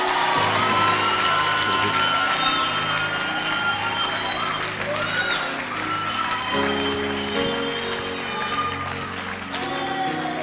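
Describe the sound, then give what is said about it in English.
An audience at a church gathering claps: a sustained wash of many hands over steady, held tones underneath, keeping a fairly even level for about ten seconds. “then clap your hands for him”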